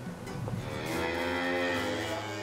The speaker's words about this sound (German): Heute kommen die Rinder auf die Sommerweiden.